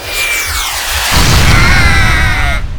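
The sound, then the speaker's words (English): A rocket launcher fired indoors and exploding, a loud hissing whoosh with falling whistling tones, then a deep rumbling boom after about a second that roars on until it cuts off. “I got a rocket launcher just for a moment like this. Die, terrorist scam! No, you can't fire it in here. You might hurt George. Oops.”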